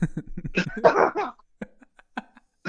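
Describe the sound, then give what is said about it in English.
A man coughs in a few harsh, throaty bursts: a longer cluster at the start, then short separate coughs with quiet gaps between them. “Because I'm choking away over there. Are you fine? Are you okay? I know, he's over there. Are you okay? He's coughing his coronavirus everywhere.”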